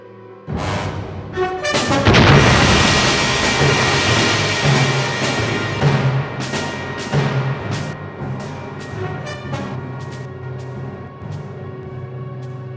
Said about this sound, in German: Was war das? Eine Explosion? Ein Meteorit.